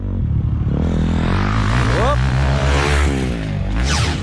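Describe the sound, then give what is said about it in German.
A motocross motorcycle riding fast over hilly terrain gives a loud, steady engine drone, with a quick upward surge in pitch partway through as it revs. “Motocross fahren. Also auf einem Töff sitzen, schnell losfahren und sogar noch über hügelige Landschaften gumpen.”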